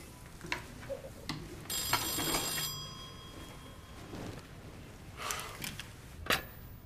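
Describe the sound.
A telephone rings in a home: one bright, trilling burst of ringing lasting about a second rises out of a quiet room, followed by faint scattered knocks and rustles, with no voices.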